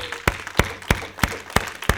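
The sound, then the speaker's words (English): A church audience claps to welcome live stream viewers. Six sharp, loud claps land together in a steady rhythm, about three per second, with lighter scattered clapping between them. “So we want to welcome our live stream audience. Let's give them a hand.”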